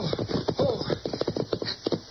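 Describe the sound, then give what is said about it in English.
Hooves of horses being ridden clip-clop in a steady run of sharp, evenly spaced beats across the whole clip, with no clear voices. “Now, you ride ahead and ask if we can water our horses.”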